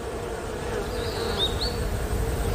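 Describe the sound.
Hornets buzz around their nest in the fork of a tree, a faint steady drone under a hiss, with a few brief high chirps.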